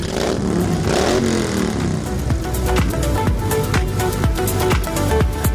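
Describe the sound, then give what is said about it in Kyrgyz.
Motorcycle engines rev at a season-opening ride in Kyrgyzstan where hundreds of bikers gather. A loud, continuous engine drone rises and falls in pitch, broken by sharp, clattering bursts throughout. “Кышы бою айдалбай турган темир тулпарларын жүрүшкө даярдап, жүздөгөн байкерлер зуулдатып айданга ашыгышат.”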